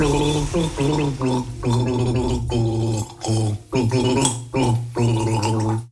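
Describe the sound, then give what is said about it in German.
A person gargles a Christmas carol as a children's game, producing wet, bubbling gurgles that carry a clear sung melody in a steady rhythm, broken into several short phrases by brief pauses. “Probiert doch mal, Weihnachtslieder zu gurgeln.”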